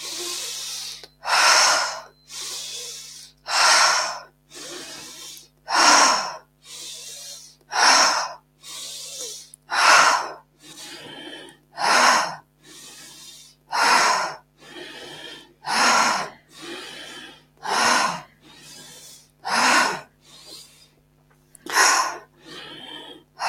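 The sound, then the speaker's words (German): Forced deep inhalations and releasing exhalations during a breathing exercise, many loud, airy breaths repeating in a steady rhythm with no other sound. “Mach weiter und finde jetzt einen Rhythmus, der für dich passt. Vielleicht möchtest du ein bisschen schneller werden, vielleicht aber auch langsamer. Richtig forcierte, tiefe Einatmung, lösende Ausatmung.”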